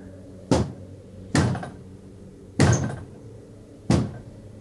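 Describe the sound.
Four heavy thuds of a door being kicked from outside, at slightly uneven intervals, each a loud booming impact with a short decay.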